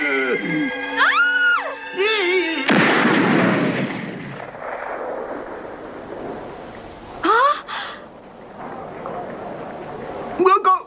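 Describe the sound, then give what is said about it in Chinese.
Gunfire in a 1987 Cantonese-dubbed animated action cartoon: a loud, broad burst cuts off character voices, then decays into rumble, followed later by two short, sharp cracks. “你咁都开枪啊！ 玻璃门冇烂到嘅。”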